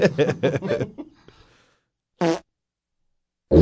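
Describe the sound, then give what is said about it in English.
Short, buzzy farts with a reedy, tonal quality, separated by stretches of silence after some earlier breathy, voiced sounds. “I love farting in the bathtub.”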